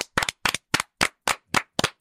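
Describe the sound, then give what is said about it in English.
Hands clapping for a football coach: a brisk, evenly spaced run of about seven sharp, crisp claps, the first one doubled, with short silences between them and no voices. “Like, what is Jason Garrett? Can we just clap for him? This is the moment.”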